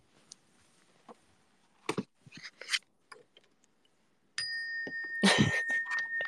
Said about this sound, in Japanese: これは部屋にある楽器を鳴らしているだけです。